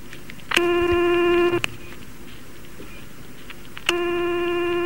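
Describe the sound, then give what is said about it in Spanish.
Ringback tone of an outgoing telephone call that goes unanswered: two long, steady buzzing rings separated by a silent gap of about two seconds, with the second ring cut off at the end. “Esto es lo mismo que llamar a Coleman. No contesta nada.”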